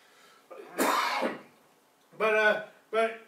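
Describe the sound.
During a sermon, someone gives one harsh, noisy throat clearing, and brief voiced sounds follow.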